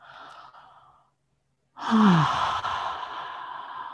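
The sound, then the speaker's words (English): A long, loud exhale through a wide-open jaw, heard as a breathy sigh with a brief voiced tone at its start that slides downward. It trails off gradually over about two seconds and comes after a short, softer breath and a pause. “Perhaps even let's open our jaw wide and make an exhale.”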